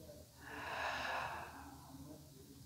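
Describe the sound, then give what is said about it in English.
A slow breath drawn in through the nose and let out through the mouth, a soft, airy rush that swells and fades once, heard alone. “Breathe in through your nose. Exhale through your mouth. Sigh as you roll your head side to side.”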